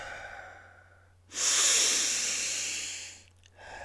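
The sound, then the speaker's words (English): A single long, deep breath: a loud airy hiss that swells in abruptly, holds for about two seconds and fades, with quiet before and after and no voices. “Stay calm. Deep breaths.”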